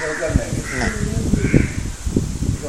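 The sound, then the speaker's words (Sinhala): A crow caws outside, harsh, nasal calls repeating a few times beneath ongoing speech. “වැරද්ද ඒ කාක්කා එළියේ ඉන්නවා කියන එක.”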